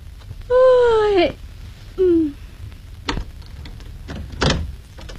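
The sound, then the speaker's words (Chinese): A door creaks open in a house late at night: a long squealing creak falling slightly in pitch, a short second squeak, then a couple of dull knocks. “开门吧。”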